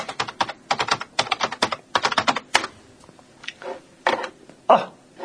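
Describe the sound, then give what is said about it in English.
Someone types a web search on a computer keyboard: rapid bursts of crisp key clicks separated by brief pauses, then a few slower, isolated keystrokes toward the end. “Let me just look it up for you. Oh, maybe. I wonder what happened if I type it into Google. Will it come up at the top?”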